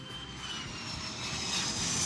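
An airplane landing at Arlanda airport in 1987: a steady, roaring aircraft-engine drone that swells slightly louder toward the end, with no voices.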